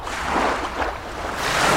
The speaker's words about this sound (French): c'est l'été, vous entendez la mer sous ma voix.